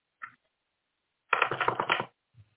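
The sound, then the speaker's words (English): Tarot cards are shuffled and a card is pulled: a quiet, dense riffle of under a second, with a soft tap before it and another after. “Pull a card for me. Oh, okay. We got to pull a card for Chris.”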